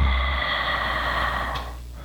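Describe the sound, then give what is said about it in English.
One deep breath drawn in: a smooth, airy inhale that lasts about two seconds and fades slightly toward the end, heard alone. “Take another deep breath in, inhale”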